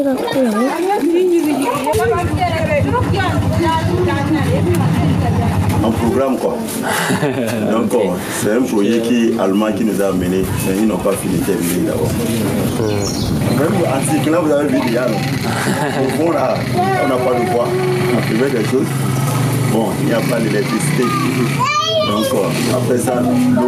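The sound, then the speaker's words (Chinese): Children's voices fill the air as kids gather at a village's only water well, in a place short of both water and electricity. Their loud, continuous chatter and play runs throughout without a break. “孩子们聚集在村里唯一的水井处，为家里接下来一周的用水做储备。”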